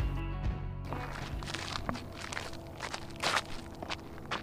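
Footsteps walk along the ground toward the Texas–New Mexico border, a steady run of many crunchy steps heard alone with no talk.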